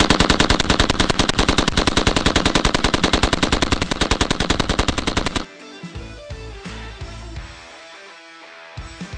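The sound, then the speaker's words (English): A belt-fed machine gun fires one long, rapid, unbroken burst of sharp, evenly spaced shots for about five seconds, then stops abruptly, leaving a quieter, lower rumble. “It's actually a pretty hard workout to shoot a belt fed machine gun while another grown man's on your back. With a belt fed machine gun.”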